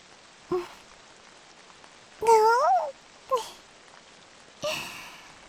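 Rain falls as a faint, steady hiss throughout, with a few short cat-like calls rising above it.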